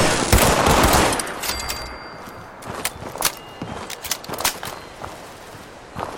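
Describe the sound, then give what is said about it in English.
Rapid video game gunfire in a fight against small robot enemies: dense bursts of sharp cracks over a noisy rumbling bed, loudest at the start, then continuing in uneven bursts. “Lots of shooting.”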